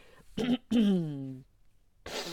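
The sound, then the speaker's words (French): A voice produces a father's throat clearing, a short rough burst followed by a longer voiced, falling 'ahem', then brief quiet before speech begins. “Le papa s'éclaircit la gorge.”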